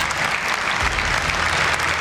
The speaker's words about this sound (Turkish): Filistinli başkan salondakiler tarafından alkışlandı.